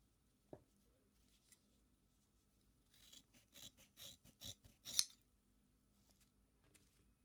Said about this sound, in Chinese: 剪向右边的长点的头发，